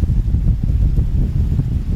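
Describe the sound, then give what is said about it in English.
Wind blowing through ash-covered palm trees beside a vegetable patch, a steady low rumbling roar with gusty swells and no talk. “You can hear the wind in the trees, and what that's doing is displacing the ash from these palm trees.”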